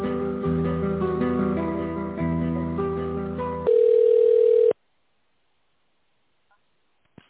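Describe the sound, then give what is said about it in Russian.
Telephone line tone during a call transfer: a busy tonal passage gives way to a loud, steady single tone lasting about a second, followed by silence broken by a few faint clicks. “Подождите минутку, давайте я вас переключу.”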